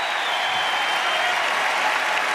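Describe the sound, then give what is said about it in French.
A tennis crowd in the stands applauding and cheering on Gaël Monfils near the end of a match, a steady, dense roar of clapping and crowd noise at an even, fairly loud level. “Écoutez le public qui est en train d'encourager Gaël Monfils, écoutez-le.”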